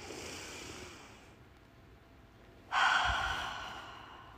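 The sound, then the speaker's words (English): A deep breath drawn from the stomach by someone congested with a cold, sounding snotty and breathy: a long rushing breath noise, quieter at first, then turning abruptly louder and harsher for its second half. “just take a very small moment, clear your mind, and take a deep breath in from your stomach.”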